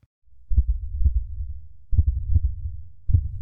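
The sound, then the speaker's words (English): A man's heartbeat: a few heavy, low, muffled thumps, some in close pairs, over a steady low rumble, with no voices. “You know what that is? It's the sound of a heart beating faster and faster.”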